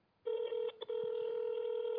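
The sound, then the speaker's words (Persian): A phone tone sounds while a number is dialed for a call: a steady electronic tone begins after a moment of quiet, broken by two brief gaps, then holds evenly to the end. “این رو این شماره 2044 ملازم بود داریم زنگ میزنیم.”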